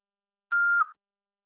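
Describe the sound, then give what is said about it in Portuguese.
A single voicemail beep tone, a clean steady mid-pitched tone lasting about half a second that dips slightly as it ends, alone against silence. “Seu chamado está sendo encaminhado para a caixa de mensagens e estará sujeito a cobranças após o sinal. Após o sinal, fale o seu nome e deixe o seu recado.”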